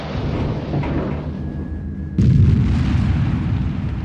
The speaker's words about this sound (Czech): Rakety pal a otevřít pumovnici.